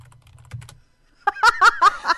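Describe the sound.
Typing on a computer keyboard: a brief, soft run of keystrokes, then a pause followed by a few short, loud voiced bursts from a person.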